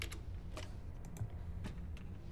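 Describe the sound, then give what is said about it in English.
Faint clicks of a computer keyboard as a username is typed, a few soft keystrokes spaced unevenly over a low background hum. “She perks up and types another username.”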